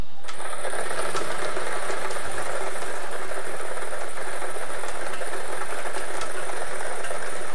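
A lottery draw machine spins numbered balls for a daily millions game, producing a steady, loud mechanical whirring and rattling that runs unbroken throughout with no talk.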